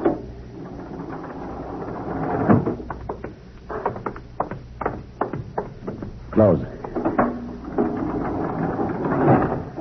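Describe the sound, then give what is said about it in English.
A spaceship airlock door opens just after landing, giving a rough, rumbling, hissing mechanical roar broken by many sharp clicks and knocks, with heavier surges of noise partway through and near the end. “Open the airlock.”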